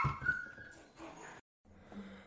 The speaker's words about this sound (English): can confirm that little dog noises you heard in the background. Everyone is okay. They were playing, and Val